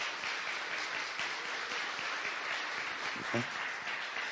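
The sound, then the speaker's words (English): Audience applause welcoming a family: dense, steady clapping fills the whole clip at an even level, with a brief voice rising near the end. “And so we're really happy and honored to welcome you as family to come and be here with us today. That we can give them a hand.”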